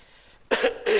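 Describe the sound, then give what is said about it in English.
Two short, sharp coughs from someone with a cough and cold, the first at mid-clip and the second near the end, following a quiet stretch. “Sorry, I have got some cough and cold.”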